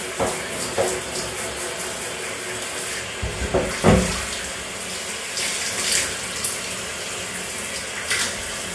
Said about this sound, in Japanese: 石鹸で洗い。はい、はーい。洗った？流すよ。